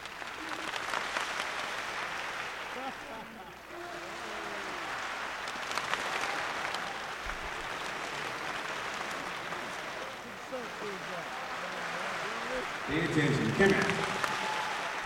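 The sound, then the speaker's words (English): An audience claps together in a room, a dense, steady patter of hand claps that carries through the whole stretch and swells briefly near the end, with some voices mixed in. “So if I go over here, boop, you start clapping, and I move my hand across like this, and as it goes this way, you guys stop, so the sound moves around the room.”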